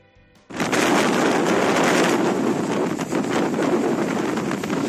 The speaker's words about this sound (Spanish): Pues este es el sonido de esta mañana, las fuertes rachas de viento que están soplando en la ciudad